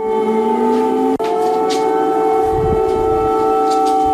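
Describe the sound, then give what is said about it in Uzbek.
Air raid sirens sound at night in the Ukrainian capital. Loud, sustained wailing tones hold nearly steady, with one brief break early on. “Ukraina poytaxtida bugun kechasi yana sirenalar ishlagan.”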